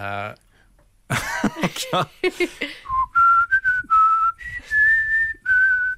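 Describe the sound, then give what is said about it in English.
A person whistles a tune in clear, high, sustained notes separated by short gaps, after first coughing and clearing their throat with a few rough bursts. “So, are you a very good whistler? Not bad, yeah. Can we get an example? What shall I whistle?”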